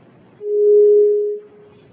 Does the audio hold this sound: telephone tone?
yes